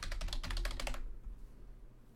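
Rapid typing on a computer keyboard, a dense burst of clicking keystrokes for about a second that then stops, leaving a low steady hum.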